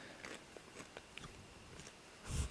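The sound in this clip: A crunchy snack is chewed right into a microphone, giving faint, repeated crisp bites and munching with a louder crunch at the end, no talking.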